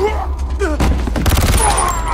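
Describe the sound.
Gunfire rings out during a violent struggle, with sharp, loud cracks and a dense crackling burst over a constant rumbling background.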